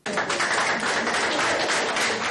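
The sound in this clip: Applause greets a 19-year-old named the 500,000th visitor to a power plant. Dense, even clapping runs loud and unbroken through the whole moment.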